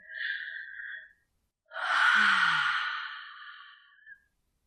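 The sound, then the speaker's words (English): A deep, relaxing breath: a short soft inhale, a brief pause, then a long, slow, sighing exhale that gradually tapers off, heard alone. “Okay, let's take a relaxing deep breath now.”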